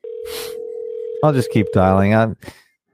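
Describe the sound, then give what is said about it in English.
A telephone dial tone hums at one steady pitch for a little over a second while a call is being redialed; then the tone stops and a person speaks. “I'll just keep dialing him.”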